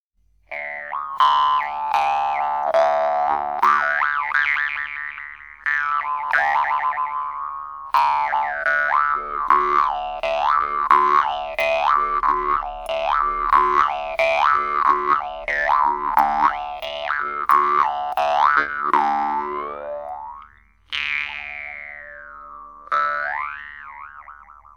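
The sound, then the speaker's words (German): A Yakut khomus, a Siberian jaw harp, twangs with a steady buzzing drone while bright overtones glide up and down in quick, shifting melodic patterns, with a short break near the end before it resumes. “Und so klingen die Obertöne einer Maultrommel, die auch dieselben Obertöne benutzt wie das Obertonsingen. In diesem Fall ist es eine jakutische Chomus, eine sibirische Maultrommel.”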